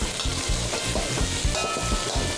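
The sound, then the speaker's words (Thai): Curry paste frying in hot oil in a pan, giving a loud, steady sizzle with many quick rhythmic scraping stirs running through it, no voices. “เทน้ำมันแล้วก็ใส่พริกแกง”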